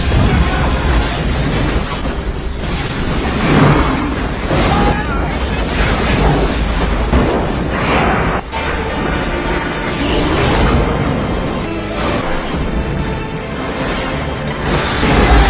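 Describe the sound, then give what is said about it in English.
Explosions, booms and crashing blasts from Michael Bay movie special effects pile up in a loud, dense, continuous roar with repeated surges and sudden bursts. “I'm going to take us out with some Michael Bay special effects.”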